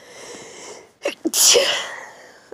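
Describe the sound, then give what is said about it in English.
A person sneezes once: a couple of short, sharp catches lead into one loud, hissing burst that trails off quickly, with only a faint hiss before it. “Sneezes.”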